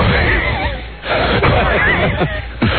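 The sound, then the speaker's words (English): Strained, groaning exhalations from a person running uphill: loud, breathy and continuous, with a brief dip near one second and effortful pushes throughout. “You can always tell when you're really working, because I get that sound as I'm exhaling.”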